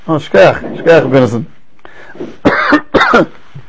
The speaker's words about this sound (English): I really stopped coughing but I'm just coughing again just to make sure